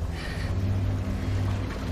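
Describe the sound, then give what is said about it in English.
A motorboat's engine drones steadily at a low pitch, with a constant hum and a broad wash of noise over it. The level stays even throughout. “Two men in a motorboat appear.”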